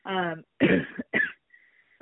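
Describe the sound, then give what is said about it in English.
A person coughing: two harsh, rough bursts following a brief throaty vocal sound, then near silence with a faint thin tone. “sorry, my cough is killing me over here.”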